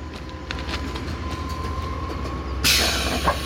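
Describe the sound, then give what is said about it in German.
The pneumatic front coupling flaps of a long-distance train built for double traction open on the left and right. A steady low mechanical hum runs throughout, then a sudden loud hiss of air bursts in near the end. “Geht pneumatisch. Genau, geht pneumatisch. Gehen die Bugklappen auf, links und rechts.”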